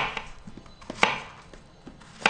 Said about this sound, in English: Then comes the mashing, which you can do with the bottom of a bottle.